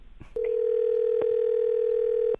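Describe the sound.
A steady, unbroken telephone tone at a single mid pitch as a call is placed to a wife. It starts after a brief faint rustle and holds loud and even to the end, with no talk.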